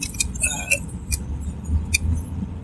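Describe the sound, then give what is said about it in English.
Road noise from a car being driven: a low, steady rumble runs throughout, with faint brief clicks and squeaks above it. “And I apologize for the background noise. I'm going to leave my recorder on as I drive.”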